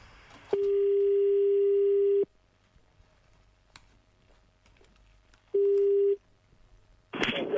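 Telephone line tone while a call is placed, heard as a long steady tone and then a shorter one with quiet between them, followed by a brief noisy burst at the end.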